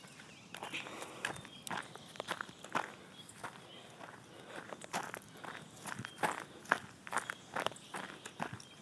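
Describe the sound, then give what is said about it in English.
Footsteps walking along a country road in front of a farm, a long run of many steady steps with a regular rhythm, each footfall a short sharp crunch heard alone without talk. “So I'm walking along the country road right now in front of my parents' farm.”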